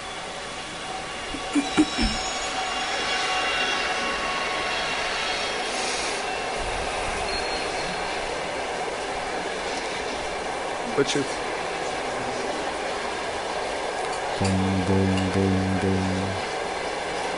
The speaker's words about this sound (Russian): Сейчас поезд проедет.